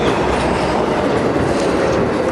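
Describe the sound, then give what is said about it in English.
A train passing, with a loud, continuous rumble of rail wheels and a steady clattering roar from start to finish. “There's our train.”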